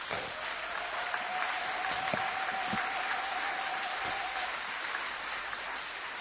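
Steady audience applause at a sermon, an even wash of clapping that holds at the same level from start to finish.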